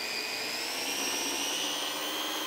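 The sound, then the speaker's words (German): A blender purées blanched spinach into a green colouring paste for the kitchen, giving off a loud, steady motor whir with a high whine that holds level throughout, no pauses or breaks. “Ich habe jetzt hier ganz einfach einen blanchierten Spinat und der wird jetzt püriert.”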